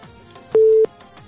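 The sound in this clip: A single steady, low telephone busy tone beeps once after a dropped phone call, holding for about a third of a second before cutting off.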